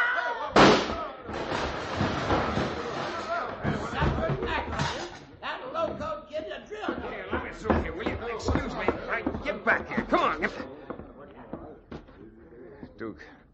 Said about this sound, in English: Duke, who plugged Tim? I did, Chad.